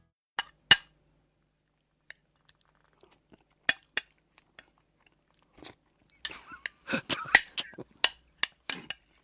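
A spoon clinking and scraping on a dish while someone eats curry: a few sharp isolated clicks early on, then a dense run of rapid metallic clinks and scrapes toward the end.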